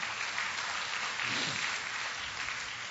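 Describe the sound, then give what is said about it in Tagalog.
Applause from a church audience, with dense, even clapping that stays steady and fairly faint for the whole stretch, with no break or swell. “Palakpakan nga natin ang Panginoon.”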